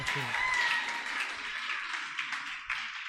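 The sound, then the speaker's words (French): Applause for a mother: clapping that is strongest at the start and gradually thins out, with a voice speaking over it. “Acclamez encore pour maman.”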